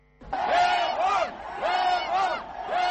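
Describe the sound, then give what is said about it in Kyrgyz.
An opposition crowd at an anti-government protest rally in Yerevan chants the name Levon, a former president's first name. Many voices shout in unison, repeating the loud rhythmic chant with short pauses between repetitions. “Жекшембиде өкмөткө каршы ири нааразылык жыйынын өткөргөн армян оппозициялык топтору жана алардын колдоочулары мурдагы президент Терпетриасяндын ысымын атап Левон деп ураган”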